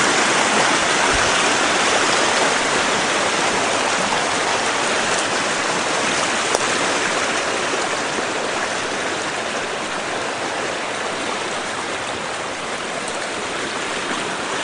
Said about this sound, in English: Creek is really roaring.